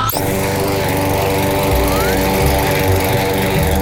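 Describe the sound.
Early in the morning, a lawn mower engine drones loudly and evenly as it cuts grass, holding a steady buzzing pitch for nearly four seconds without pause.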